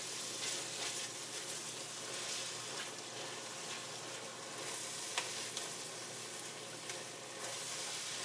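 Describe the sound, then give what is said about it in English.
Red wine sizzles and hisses as it hits a very hot pot holding browned, burnt-on beef bits. The hiss is a steady, even sizzle throughout, with a few faint scraping clicks and no talking. “Okay, that red wine is almost going to evaporate instantly in this very, very hot pot.”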